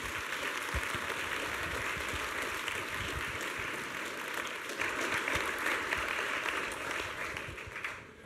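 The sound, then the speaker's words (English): An audience claps to welcome a speaker onto the stage, producing a soft but dense, continuous patter of many hands that swells slightly partway through and then thins out toward the close. “Why don't you put your hands together and welcome our good friend here, Abdu Murray.”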